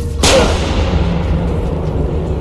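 A wrist-mounted gun fires in a medieval-set video game: a single sharp, loud shot near the start, followed by a long, fading rumble over a steady low hum.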